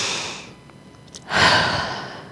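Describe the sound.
Deep breathing taken together during prayer: a soft, airy breath fades out, then after a brief lull a louder, broad breathy rush swells and slowly tapers off.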